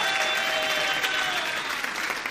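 Audience applause for a young painter at a gathering, a continuous burst of many hands clapping together, lively and even before easing slightly toward the end.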